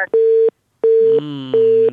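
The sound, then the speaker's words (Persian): Busy tone after a phone call is cut off: three steady, mid-pitched beeps at even intervals separated by silent gaps, loud and clean, with a sustained layered tone entering beneath the later beeps. “دومین تماس است که قطع شد.”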